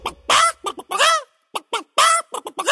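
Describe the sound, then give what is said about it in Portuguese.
A hen squawks in a rapid run of loud, harsh clucks and cackles with short gaps between them. “E a galinha gritou:”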